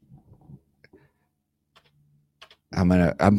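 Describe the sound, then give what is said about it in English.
Typing on a computer keyboard while editing text produces a few sparse, scattered key clicks and taps over a quiet background. A voice then begins talking near the end. “I'm editing. I'm cutting out the extra spaces.”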